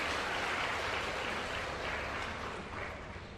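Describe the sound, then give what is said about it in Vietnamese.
A hall audience applauding at a Buddhist teaching talk, honouring four people who came forward: faint, even, continuous clapping that eases slightly near the end. “Hoan nghênh cho ba vị, bốn người đằng sau luôn. Hoan nghênh cho bốn vị Bồ Tát giùm tôi.”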